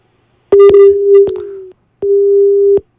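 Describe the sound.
A telephone line tone after a caller's line is cut off: two loud, steady, mid-pitched beeps, the first longer and marked by a few clicks, separated by a short gap.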